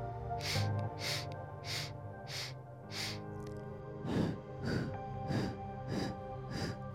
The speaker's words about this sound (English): Inhaling in 5 parts through the nose, exhaling in 5 parts through the mouth.